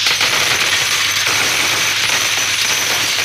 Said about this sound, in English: That's the sound of money. Money you can win on WHK's Cash Quiz Jackpot.